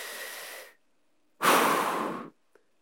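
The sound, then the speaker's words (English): A deep breath drawn by a person: two airy rushes of breath, the first softer and the second louder and longer, with a short silent gap between them and a tiny click at the end. “Take a breath right now. Okay, one more in case you haven't participated yet.”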